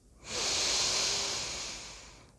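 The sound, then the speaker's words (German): A single long inhale through the nose during a guided breathing exercise, a steady airy hiss that swells quickly, holds for over a second, then slowly fades, with no talking. “Ich atme ein durch die Nase.”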